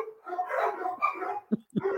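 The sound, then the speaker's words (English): Dogs bark at someone at the door in a quick flurry of sharp, mid-pitched barks and yips, loud and with no talk. “I'm so sorry about my dogs.”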